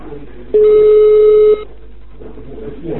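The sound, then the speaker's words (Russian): A telephone tone on an incoming call: a single steady, mid-pitched tone lasting about a second, cutting in over quiet line hiss and then stopping. “И у меня звонок входящий.”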